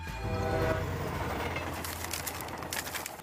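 An airport rail shuttle between JFK airport and Manhattan gives a steady, broad rumbling roar throughout, with scattered bird chirps over the noise.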